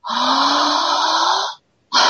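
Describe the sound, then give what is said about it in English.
Loud breathing through the mouth during a guided breathing exercise: one long, steady, rushing breath lasting about a second and a half, a brief silence, then the next breath begins. “Take a big exhale together. In mouth, out mouth.”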